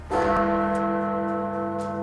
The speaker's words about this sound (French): So Big Ben has struck 10 o'clock.